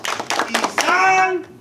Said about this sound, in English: It's the last day of school and the last day ninth grade ethnic studies will do their unity clap.